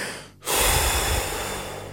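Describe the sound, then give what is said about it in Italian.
A deep breath taken slowly after a brief pause, a long, steady airy rush that swells quickly and then holds, easing off only slightly over about a second and a half. “Faccio un respiro.”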